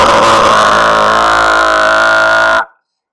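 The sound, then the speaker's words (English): A small four-rotor quadcopter drone whines loudly, its rotors spinning at full speed to make a dense, steady, buzzing drone rich in harsh overtones, which then cuts off abruptly near the end. “They're nothing but motors on a shitty fucking... It's four fucking helicopter rotors spinning as fast as they can,”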